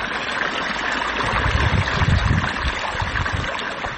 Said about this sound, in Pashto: غلام حضرت د کوکنارو تازه کرل شوو کښتونو ته اوبه ورکوي